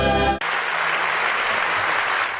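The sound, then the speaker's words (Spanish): Sustained applause from an audience at a music program, breaking in right after a brief burst of music cuts off, then continuing as a dense, steady patter of clapping throughout. “gracias por los aplausos”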